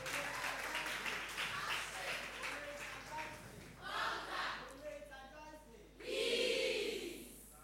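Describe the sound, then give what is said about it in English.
Audience applause at a senior high school debate as the debaters are welcomed: a burst of many clapping hands at first, followed by a voice talking as the clapping dies away. “And keep the applause rolling as we welcome your debaters.”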